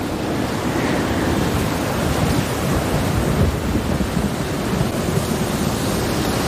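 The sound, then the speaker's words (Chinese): A strong gale blowing across the land in Ruaha as the dry season ends: a loud, continuous roar of rushing air with slight gusty swells, and no voices. “狂风赶走了鲁阿哈的旱季，”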